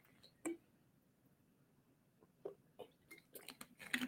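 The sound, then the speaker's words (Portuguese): A person takes a quick sip of water: faint mouth clicks, a pause, then a small cluster of soft wet swallowing sounds near the end. “desculpa, gente, deixa eu beber uma aguinha rapidinho.”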